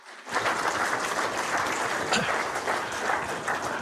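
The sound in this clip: An audience applauds to welcome a speaker to the stage, dense, steady clapping that rises quickly and holds at an even level to the end.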